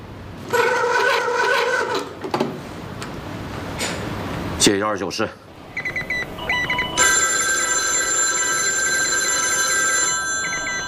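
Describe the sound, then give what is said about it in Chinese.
A telephone bell rings at an army division headquarters in bursts of bright, harmonic ringing, followed later by other sustained electronic tones. “师长，三军军长曾万忠电话。”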